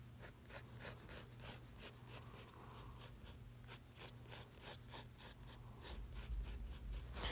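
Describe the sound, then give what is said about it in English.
A pencil draws and erases on paper: quiet, rhythmic scratching and rubbing strokes repeat many times at an even pace. The sound is faint, with no talking. “Let's erase this skirt and draw pants instead, actually.”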